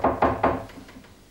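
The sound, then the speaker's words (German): Knocking on a door: three sharp, loud wooden raps in quick, even succession, followed by a few softer, fading knocks, with no voices. “als es plötzlich an der Tür klopfte.”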